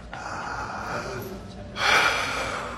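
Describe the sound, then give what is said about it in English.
A person takes a deep breath: a long, airy, unvoiced inhale, then a louder rushing exhale that fades away. “Deep breath.”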